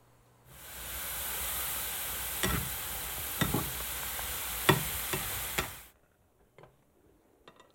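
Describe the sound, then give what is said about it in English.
Squirrel meat simmering in a pot, a steady bubbling hiss broken by a few sharp clinks as it is stirred now and then. The simmer cuts off abruptly into near silence with faint ticks. “we'll stir it occasionally, and then when we can tell it gets tender, then we'll know it's done”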